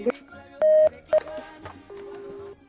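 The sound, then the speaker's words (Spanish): A telephone number being dialed for a radio station call: a few short touch-tone beeps of differing pitch, then a longer steady tone, with faint background noise between them. “ya le estamos marcando.”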